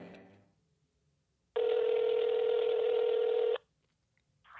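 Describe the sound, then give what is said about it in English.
A telephone tone sounds as a call is placed: one steady, loud electronic tone holds for about two seconds, with quiet before and after it. “Here he is. I'm going to give him a call.”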